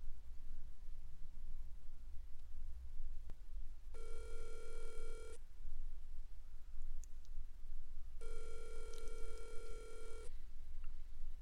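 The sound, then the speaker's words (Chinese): Telephone ringing while calling back: two separate bursts of steady, bright, harmonic ringing, each lasting one to two seconds, fairly faint over a low background hum. “那男真就先给弟弟回电话了”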